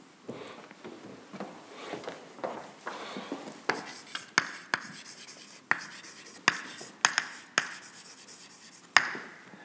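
An equation being written out by hand: faint scratchy strokes broken by many sharp little taps at an irregular rhythm, with no one speaking.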